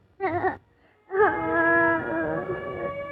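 A small child cries: a short wavering cry, a brief pause, then a long sustained wail that holds a steady, tearful pitch to the end.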